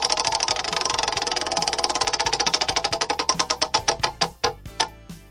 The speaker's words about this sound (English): We bring the big wheel out. We spin around the state.